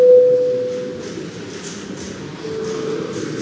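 A parliament voting signal sounds as a loud, steady pure tone for about half a second, then gives way to a low hiss and faint murmur.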